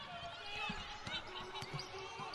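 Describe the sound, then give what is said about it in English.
A basketball is dribbled on the court during a BYU vs Nevada college game, with several sharp bounces under crowd noise and a commentator's voice. “Dominique Maxey with the dribble.”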